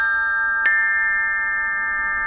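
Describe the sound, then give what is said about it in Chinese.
Ancient Chinese bronze bianzhong chime bells ring with a bright, sustained metallic tone. One clear strike early on renews the resonance, which then hangs and fades slowly, quiet and alone. “快来听啊，曾侯乙编钟竟然再次奏响了”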